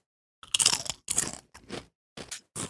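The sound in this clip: Dry, crisp crunching as people bite into a sweet, creamy Japanese chip: about five short, crackly bursts with brief gaps between them.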